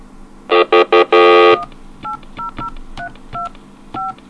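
Touch-tone telephone dialing: a quick run of loud keypad beeps, one held longer, then a slower series of quieter tones at uneven intervals.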